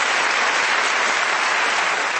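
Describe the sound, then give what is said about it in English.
Steady audience applause, a dense and even wash of many hands clapping at constant loudness throughout, with no voices over it. “Can we give them a round of applause?”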